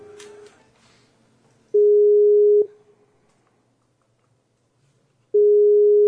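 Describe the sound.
A telephone ringing tone sounds while a call is placed to a pharmacy: two long, steady, mid-pitched buzzing tones separated by a long silence, the second cut short at the end, with faint background noise before the first.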